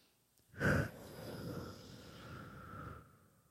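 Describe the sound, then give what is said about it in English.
One slow, deep breath: a sharp nasal inhale, then a long, steady, soft exhale through the mouth that trails off quietly. “let's think of one final inhale through the nose and then exhale through the mouth.”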